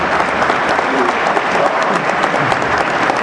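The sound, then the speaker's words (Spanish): Loud applause from the audience at a community gathering in Capulálpam, Oaxaca, thanking the kitchen helpers: a thick, continuous burst of clapping that stays at a full, even level throughout. “a las compañeras que están en la cocina. Un aplauso”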